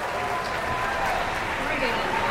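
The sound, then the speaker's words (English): Concert audience applause at Kresge Auditorium during a World Youth Symphony Orchestra performance: dense, steady clapping that holds at an even level throughout, with a voice talking over it. “We're already getting a lot of applause, and it's only the second piece of tonight's program.”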